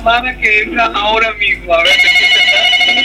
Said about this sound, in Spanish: Y tenemos otra llamada que entra ahora mismo.